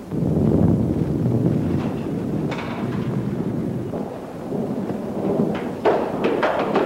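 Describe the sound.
A thunderstorm with deep, rolling thunder rumbling over steady rain, several loud crackling peaks rising out of the continuous low roar.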